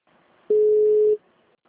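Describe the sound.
A single steady telephone tone after a dropped call sounds once, held at a low-mid pitch for well over half a second before cutting off, alone over faint background hiss.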